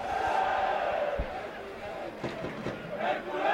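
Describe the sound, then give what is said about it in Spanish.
Football crowd cheering at the Rico Pérez stadium during a Hércules match: a dense, continuous roar of many voices that swells and eases throughout. “Ahí animando el público del Rico Pérez.”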